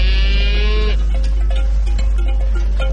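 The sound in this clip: A single low, drawn-out moo from cattle in a herd of about 200 mixed animals and calves grazing on a hillside. The call is loud at the start, then stops, leaving a steady low rumble.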